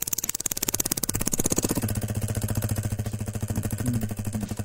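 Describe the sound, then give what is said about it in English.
A prize wheel spun by hand gives a fast, steady run of many sharp ratcheting clicks that continue through the whole stretch at a fairly even pace. “you ready to spin that wheel? Let's do it.”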